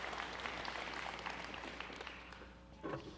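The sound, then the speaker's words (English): A church audience applauds in a dense, even patter of clapping that eases slightly over time, with a short louder swell just before the end. “All right, let's give Quentin a hand for sharing the gospel with us.”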